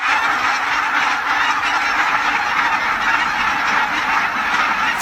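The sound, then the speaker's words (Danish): A large flock of barnacle geese honks as it flaps over farm fields in a dense, unbroken clamor of overlapping calls that stays loud and even throughout. “Ja, sådan lyder det altså typisk, når bramgæssene de kommer baskende hen over markerne her i regionen.”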